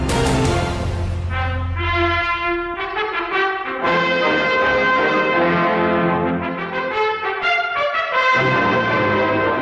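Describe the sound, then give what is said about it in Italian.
An epic trumpet fanfare rings out in bold, sustained brass notes that step up and down in pitch. It plays loud and continuous throughout. “Epici squilli di tromba ci accompagnano lungo il sentiero che ci viene indicato oggi dagli dei dello sport.”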